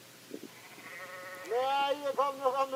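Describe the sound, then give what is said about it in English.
Sheep bleating on a foggy farm field: after a quiet stretch, a few loud, wavering bleats break out in quick succession, with faint sounds before them. “As soon as he spoke, did you hear the sheep? As soon as he spoke.”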